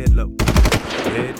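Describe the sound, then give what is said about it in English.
A gunfire sound effect in a rap track about gunplay: short, booming bursts of rapid shots, with a man speaking briefly between them. “That's the sound of the gunplay.”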